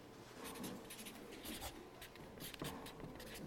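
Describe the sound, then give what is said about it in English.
A word is written on a board: faint scratchy strokes in short, uneven bursts, with no one speaking. “So let's write crucified across it.”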